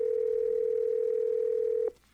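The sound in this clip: Telephone dial tone as a call connects: a steady, low, unbroken hum that runs loud and even, then cuts off abruptly with a short click near the end, leaving a faint hiss.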